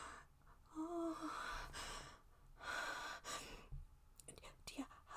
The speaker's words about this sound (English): Breathe right next to my ear like that, babe.